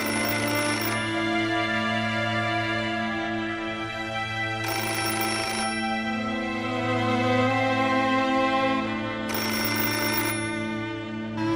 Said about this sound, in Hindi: खुदा के लिए फोन उठाएं, फोन उठाएं